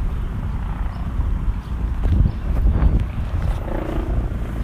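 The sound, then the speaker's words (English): Outdoor wind buffets the microphone, producing a low, rumbling roar that swells and dips unevenly throughout. The gusts are loud and continuous, with no clear separate events. “I wonder how the... how this wind is translating onto this I'm not sure. I hope it doesn't mess it up or anything.”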